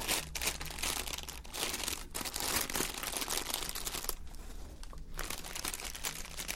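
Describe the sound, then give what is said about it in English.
Crinkly paper rustles and crackles as a Secret Santa gift box is unwrapped, a dense, continuous crinkling that runs throughout with a few brief pauses. “Lovely crinkly paper.”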